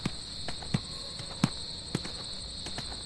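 Footsteps of people walking on at an unhurried pace, a run of soft thuds about every half second, with a steady high insect chirring behind them.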